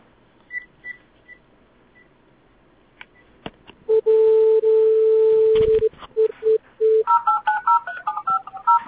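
Keypad dialing tones on a landline telephone: faint short beeps give way to a loud, long steady tone, then a run of rapid, clipped dual-tone keypresses.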